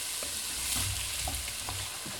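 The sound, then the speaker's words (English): Steady sizzle of chopped celery, onions and carrots frying over medium heat, a continuous even hiss with faint stirring sounds underneath. “the chopped celery, onions, and carrots. We'll cook these vegetables over a medium heat until they begin to soften.”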